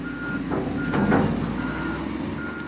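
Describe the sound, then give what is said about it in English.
Reversing beeps from bulldozers and cranes at work across Fort Bliss: four evenly spaced, high electronic beeps over a low, steady rumble of heavy engines. “As you drive across Fort Bliss, there are bulldozers and cranes everywhere.”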